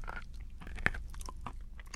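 Someone chews edible dirt that looks like chalk, feels slippery and crumbles. The faint crunching bites are soft and irregular, with one sharper crunch partway through.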